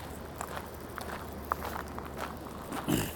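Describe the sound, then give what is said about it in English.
Footsteps of someone walking at the Salt Flats: many soft, irregular steps crunching lightly over a steady low background, with a slightly louder scuff near the end. “All right, so we're going this way. Okay. I'm just walking.”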